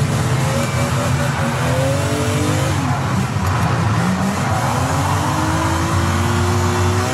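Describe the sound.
A car drifting sideways, its engine revving hard in wavering tones over a continuous loud roar with some tire squeal throughout.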